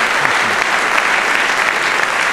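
Loud, dense applause from a debate audience welcoming a debater who argues for a motion on income inequality. The clapping is continuous and even for the couple of seconds heard.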